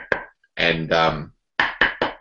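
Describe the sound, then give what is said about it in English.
Knocking on the wood of a bat blade to judge its tone gives short, sharp knocks with a bright ringing note. One comes first, then three quick ones follow a brief stretch of a man talking. “you can start to get a feel for the speed of the wood by the tone of the ball on the bat. I know previously we used to just knock on it”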